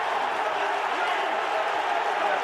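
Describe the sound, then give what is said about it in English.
A football crowd roars after Miles Lieburn's goal for Charlton, a loud, unbroken wall of cheering with a voice talking over it. “Miles Lieburn scores for the Addicts, and the cries of Lieburn go up.”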